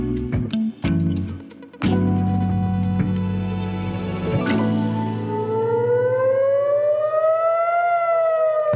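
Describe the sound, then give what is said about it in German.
Civil-defence air-raid siren in Israel warning of incoming rockets, a loud wail that climbs slowly in pitch and holds high, preceded by a few sharp knocks over a steady low hum. “Dieses Geräusch, was man da jetzt hört, das ist das Warngeräusch. Das ist die Sirene, die einem sagt, die Raketen sind unterwegs.”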